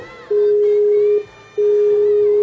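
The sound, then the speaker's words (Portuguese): A Skype call ringing on the caller's side: two long, steady mid-pitched tones separated by a short pause, fairly loud and with no talk over them. “vamos, eu deixei o Skype dele aqui, vamos ligar.”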